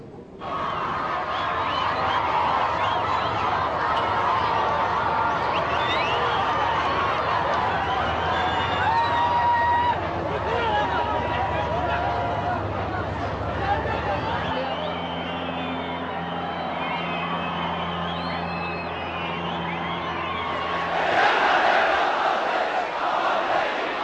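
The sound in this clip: A large crowd roars and shouts continuously in a rapturous welcome for Ayatollah Ali Khamenei in Sanandaj, capital of Iran's Kurdistan province. The dense mass of voices stays loud throughout.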